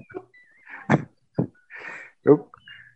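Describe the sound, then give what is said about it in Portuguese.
A pet cockatiel whistling a tune: thin, high whistled notes alternate with short, louder chirps and squawks, all fairly faint with quiet gaps between. “A sua calopsita está cantando”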